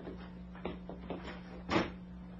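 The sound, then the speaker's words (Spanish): A door sound effect in a Spanish-language radio drama marks a young man leaving a room through the same door he came in by. A few soft knocks over a steady low hum lead to one louder thud near the end. “El muchacho sale de la habitación usando la misma puerta que le diera acceso.”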